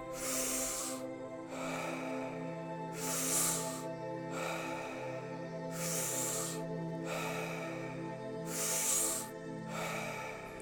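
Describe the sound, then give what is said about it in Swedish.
Deep breaths drawn in and out during a guided breathing exercise, heard as several long, airy rushes that recur at a slow, even pace over a steady sustained musical tone. “In och ut. Tio kvar nu. Djupa andetag.”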